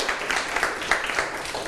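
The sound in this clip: Applause in a classroom as students clap for a classmate: a faint, steady patter of many hands with small bursts throughout, and no talking.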